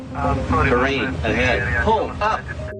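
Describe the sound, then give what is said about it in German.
An aircraft cockpit warning sounds as a false alarm set off by signal interference: a voice-like electronic alert with shifting tones, ending in a brief steady tone. “Manche Störungen sorgen in den Cockpits sogar für Falschalarme wie solche.”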